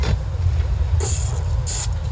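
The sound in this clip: Sharp, hissing bursts from a spray paint can, with white paint misted onto lettering from farther back to make star-like specks; a few brief, bright sprays separated by pauses, over a steady low rumble.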